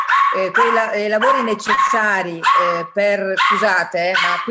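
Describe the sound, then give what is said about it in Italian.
A dog going frantic when the doorbell rings: a rapid, loud run of many high, yelping barks and whining cries, one after another with barely a pause. “quando suona il campanello, il cane fa da matti, adesso lo facciamo uscire”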